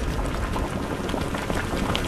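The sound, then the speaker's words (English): Steady bubbling and hissing of maple sap boiling down over a wood fire in Geauga County, a dense, even roil of liquid with no clear breaks, fairly loud and without voices. “stoking the fire to boil down that maple sap in Geauga County.”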